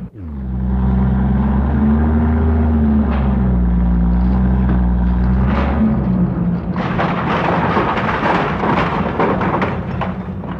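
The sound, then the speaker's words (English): A wrecking ball demolishes a brick church tower, breaking through walls as bricks and mortar fall. A loud, deep machine rumble runs throughout, then dense crashing and clattering debris take over in the later part. “demolition of the tower began in earnest, and the heavy ball breaking through the walls and throwing bricks and mortar to the ground.”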